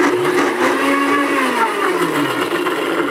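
A blender pulses hollandaise sauce in one continuous, loud motor whir of about three seconds, its pitch climbing slightly and then easing back down.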